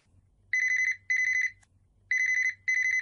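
A telephone ringing in two double rings: four bright, trilling electronic bursts of steady high pitch with short gaps between pairs, heard alone.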